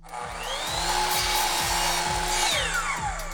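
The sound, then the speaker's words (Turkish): A power saw making a 45-degree angled cut: the motor whine climbs as it spins up, holds a loud steady drone through the cut, then drops in pitch as it winds down near the end. “45 derece var burada. Yerine oturtalım ve kilitleyelim. Tamamdır. Şimdi kesiyorum.”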